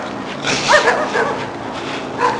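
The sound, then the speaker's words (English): Dogs barking: a few short, high yips and barks in quick bursts, moderately loud, with no talk over them. “sorry about the barking dogs if you can hear those.”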